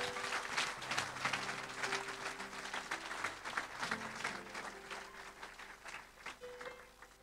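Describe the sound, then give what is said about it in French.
Applause from a church audience after a fundraising announcement, steady dense clapping that swells and fades slightly over several seconds, with a faint sustained organ or keyboard tone beneath. “On peut vraiment acclamer Jésus-Christ de Nazareth.”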